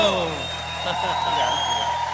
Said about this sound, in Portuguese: Uma salva de palmas, meninas e amigos.